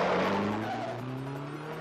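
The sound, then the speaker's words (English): Race cars roar along with their engines droning steadily and a rough, squealing edge of tire noise. The sound stays loud and continuous for the whole moment, with no voices. “all the cars are back in the race once again”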